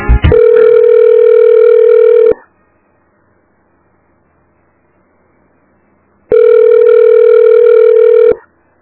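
Telephone line tone during a call transfer: two long, steady, buzzy electronic tones, each about two seconds, separated by a few seconds of silence.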